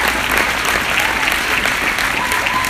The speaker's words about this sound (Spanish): Dame un aplauso a Dios. Give God a hand praise and give us kudos.